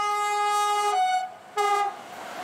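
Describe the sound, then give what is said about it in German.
A passing train sounds its horn signal through a small village: a long, loud, steady blast followed after a short pause by a brief second blast, both bright, rich tones. “Hier fährt so mancher Zug ohne anzuhalten vorbei. Aber nie ohne ein Hubsignal.”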